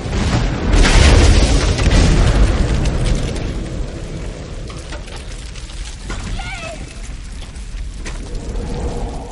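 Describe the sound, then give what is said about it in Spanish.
A bridge explodes in a zombie horror film scene: a loud, broad boom bursts in near the start, then gives way to a long, rough, rumbling roar that slowly eases but stays heavy throughout. “Cruzan. El puente estalla a su paso.”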